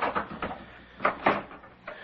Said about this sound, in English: Would you open the door, please?